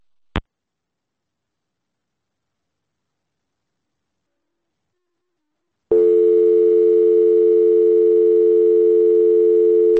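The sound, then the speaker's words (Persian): A phone dial tone follows a dropped call: a single sharp click, several seconds of silence, then a steady, unbroken tone that holds at even loudness to the end. “مثل این که متاسفانه ما تلفن آقای اکبرین رو از دست دادیم و تلفنشون قطع شده. دوستان اتاق فرمان داریم ایشون رو روی خط یا قطع شده؟ قطع شده.”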